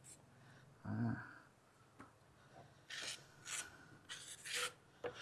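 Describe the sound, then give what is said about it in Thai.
A steel ruler scrapes across setting cement to smooth the top of a moulded piece, giving a few short, fairly faint rasping strokes separated by quiet gaps. “ครูจะใช้ไม้บรรทัดนะครับไม้บรรทัดนะครับเป็นฟุตเหล็กนะครับปาดนะครับปาดให้ตัวชิ้นงานนะครับมีความเรียบนะครับ”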